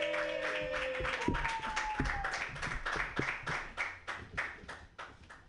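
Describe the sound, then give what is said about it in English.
An audience at a comedy show applauding and clapping as a comedian is welcomed to the stage: a steady, rhythmic beat of many claps that carries on for several seconds at moderate loudness. “Put your hands together yeah. for Murat Chaki. Yay!”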